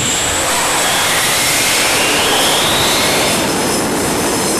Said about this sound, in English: we're what make this an aircraft carrier. You know, the ship's primary system against aviation warfare is the aircraft. And so we make sure the aircraft get up safely.